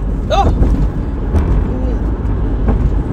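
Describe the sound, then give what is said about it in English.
A Dodge SRT muscle car's engine roars past as a loud, steady low rumble that holds throughout, with a person briefly talking over it. “Ooh, y'all, this is an SRT. That's what this motherfucker sound like. Ooh, good SRT.”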